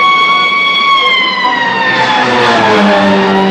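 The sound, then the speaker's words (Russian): An ambulance siren blares as the vehicle races along a race track, one loud, sustained wail that slowly drifts lower in pitch over a few seconds. “По гоночной трассе несется машина скорой помощи.”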